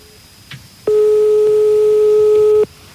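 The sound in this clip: Telephone ringing tone of an outgoing call, heard as a single steady electronic beep lasting under two seconds over faint background hiss.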